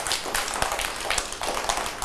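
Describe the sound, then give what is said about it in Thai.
Children clapping in a classroom for a classmate's artwork, a loose run of many quick, uneven claps at moderate loudness, with a few sharper single claps standing out. “เด็กๆปรบมือให้กับการ์ตูนหน่อย”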